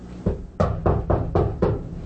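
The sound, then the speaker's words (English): Knocking on a front door: six firm, dull thumps in a steady, slightly uneven rhythm, each with a short decay. “In the early afternoon, Newt knocked on Catherine's front door.”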